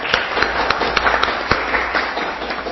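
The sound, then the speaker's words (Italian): Applause from a town council meeting: a loose scattering of individual claps, irregular and fairly sparse, popping over a low steady background. “Quindi tutto il Consiglio Comunale ti fa i complimenti. Ecco, un plauso, facciamo un...”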